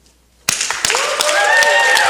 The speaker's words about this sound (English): cheer our friend on from here, who's still in the hospital, with a cheer to let her know that we are cheering her on? Ready? Go.